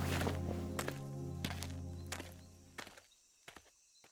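Footsteps of an old man, a grandfather, walking away: a few heavy, irregularly spaced steps over a steady tonal background, the later ones softer and more scattered.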